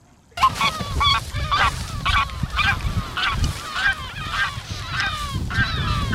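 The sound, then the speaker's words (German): A greylag goose honks as it flies up from its nest, letting out many loud, nasal calls in a steady rhythm with a low rumble underneath. “wenn dann einzelne Graugans irgendwo ihr Nest gebaut hat, setzt sie sich da ja hin und fliegt dann in dem Moment auf.”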